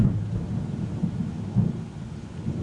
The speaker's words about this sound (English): there's nothing quite like thunder in the mountains. I'll just be quiet while the sky talks.